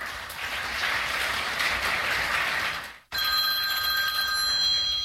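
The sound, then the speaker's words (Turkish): A telephone rings with a steady, shrill electronic trill. It starts abruptly after a few seconds of broad, hissing noise and continues alone to the end. “Aranızda iyi olanı varsa bir zahmet çıkıversin şu telefonu.”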